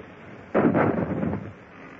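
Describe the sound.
A ship's cannon fires a single shot, a sudden deep boom that rolls and rumbles for about a second before fading back into steady background hiss.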